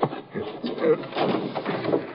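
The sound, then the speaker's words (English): An apartment window is pulled open in a radio drama, giving a short squeak and a muffled sliding scrape amid dull knocks. “Hey, somebody outside the window. I'll open it.”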